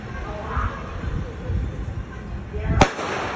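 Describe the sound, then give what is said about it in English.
A gunshot gives one sharp, loud crack near the end, standing out over a steady, rumbling background noise. “The guy just shot the dude in the head again.”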